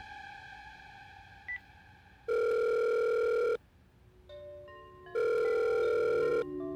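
Ringing of a telephone call to a voicemail box: two long, steady, bright ring tones, each about a second long and a few seconds apart, with no talk.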